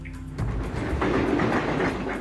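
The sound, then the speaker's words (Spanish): A train passes, a broad rolling rumble that swells in after a quieter start and then stays loud and steady to the end. “Ahí está el tren.”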